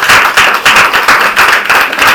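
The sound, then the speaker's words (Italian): Loud applause from an audience after a reading of a political short story, with strong, evenly pulsing bursts of clapping running for the whole two seconds. “insomma, l'applauso mi sembra molto, molto chiaro.”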